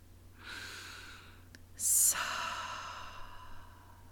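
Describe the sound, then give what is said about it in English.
A deep breath during a guided relaxation exercise: a soft airy inhale, then a longer sighing exhale with a sharper rush of air at its start, heard alone over quiet background hiss. “Get really comfortable. Take in a deep breath.”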